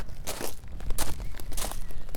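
Footsteps walking toward an old theatre hall building, a steady run of gritty, crunching steps with uneven loudness and no voices.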